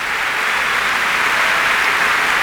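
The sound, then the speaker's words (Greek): Audience applause at a BBC concert near the start of the evening: dense, steady clapping that stays loud and even throughout, with no break or swell. “Το κοινό έχει ξετρελαθεί. Ήδη από τώρα που είναι η αρχή της βραδιάς, έτσι.”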